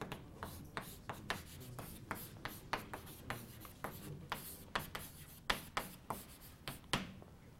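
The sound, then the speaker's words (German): Handwriting during a lecture: many quick, quiet scratching strokes in an irregular rhythm, with brief pauses between bursts of writing. “So, ich schreibe das noch dazu.”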